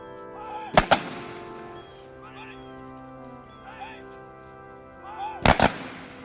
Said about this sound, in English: An escort of honor comes to attention and presents arms. Three rifle volleys are fired.